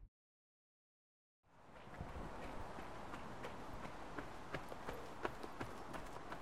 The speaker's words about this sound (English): So you hear that quite often, being overtaken by runners.